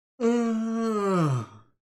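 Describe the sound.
A man voices a yawn: one drawn-out, groaning tone that holds steady for over a second, then sinks in pitch and trails off. It is alone and moderately loud.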